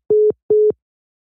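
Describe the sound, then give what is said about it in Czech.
A disconnect tone follows a cut-off phone call: two short, identical beeps at a steady mid pitch, evenly spaced, with nothing else around them. “Tak se nám přerušil hovor po hodině.”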